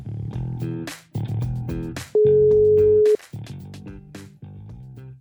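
A telephone ringing tone from an outgoing call sounds once as a single steady beep lasting about a second, briefly cutting through other busy harmonic sound that surrounds it.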